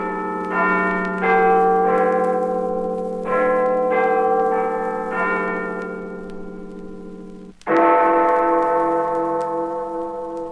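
The clock bells of Big Ben chime in a tune of several overlapping strokes that ring and decay, followed near the end by a louder, heavier strike that hums on. No voices are heard.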